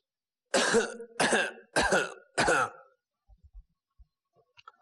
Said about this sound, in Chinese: 从这个咳嗽的动静啊，盛奎心里想都打空腔了。这动静这么熟